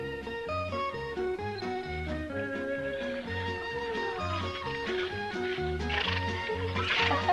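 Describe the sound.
A horse neighs in a dubbed Kurdish cartoon, a whinnying cry set over a bouncy music track with a steady, pulsing bass beat.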